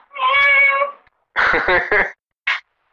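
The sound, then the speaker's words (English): A cat meows during a multi-person phone call: one long, drawn-out, steady tonal meow, followed by a few shorter sounds. “Did somebody just make a cat noise?”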